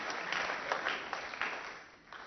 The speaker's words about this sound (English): I think we just need to clap for them for inviting the entire church.